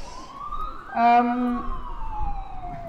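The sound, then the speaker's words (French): An ambulance siren passing on a street in Brussels: a sustained, loud wail that glides steadily downward in pitch, with a voice briefly audible in the middle. “une ambulance, là, on laisse passer, s'il vous plaît.”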